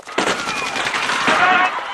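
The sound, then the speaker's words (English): Rifle gunfire cracks in sudden, rapid, loud bursts that blur into a continuous crackling volley, with a voice heard over the shots. “A bullhorn is shot out of Gil's hand. Nice shot, son!”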